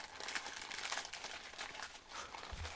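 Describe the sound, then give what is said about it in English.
Gift wrapping paper printed with poinsettias rustles and crinkles steadily as a present is unwrapped, a continuous papery crackle with small louder bursts throughout. “Very nice wrapping. It has some poinsettias on it. Yep. Some, let's see. I like looking away as I'm unwrapping.”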